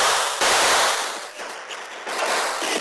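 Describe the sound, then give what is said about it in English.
Gunshots fired through an open window, heard as a few loud, sharp bursts over a dense, harsh wash of noise that stays loud throughout. “As bullets whined through the open window, Dude jumped.”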